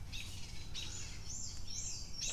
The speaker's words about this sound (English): There's a lot of bird chatter. I'm looking around. I'm looking up in the trees.